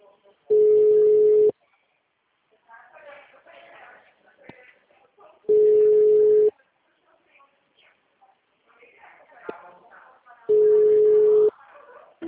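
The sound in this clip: Telephone line tone on a call to a city hall while the wanted extension is engaged: three steady single-pitch tones about a second long, spaced roughly four seconds apart, with quieter murmuring sounds in the gaps.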